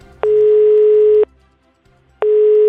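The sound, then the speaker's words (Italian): Telephone call tone: two loud, steady, even-pitched beeps of about a second each, separated by a silent gap, with no voices. “Chiama qualcuno e cerca lavoro il clown Neronello.”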